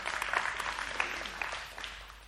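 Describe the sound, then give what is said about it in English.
An audience claps hands in a clap offering. The applause is dense and crackling, with a few sharper individual claps standing out, and it thins and softens toward the end. “You might wonder, yeah, you can give the Lord a clap offering. You certainly can.”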